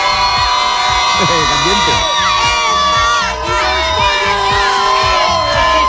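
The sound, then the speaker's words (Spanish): Loud, continuous cheering from about a hundred local football fans, many of them South Americans living in the United States, gathered for Spain's national team in Chattanooga. Many overlapping shouts and whoops rise and fall throughout without a break. “te diría en torno a 100 aficionados locales, sobre todo muchos sudamericanos que viven aquí en Estados Unidos y que han venido a decir adiós a la selección española por unos días. Pero fíjate cómo suena, cómo suena.”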